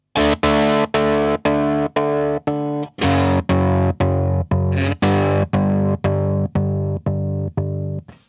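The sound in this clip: An effects unit with its depth control turned up chops a distorted, harmonically rich tone into a steady stream of rapid, evenly spaced pulses, loud and alone, with a brief change in character partway through.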